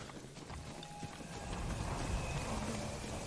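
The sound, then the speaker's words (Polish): Horse hooves clip-clopping: a faint, steady patter of hoofbeats that grows slightly louder partway through, alone without talk. “Czy to jest mój koń? To nie jest mój koń. Chodź tu, kochany. Chodźże tu.”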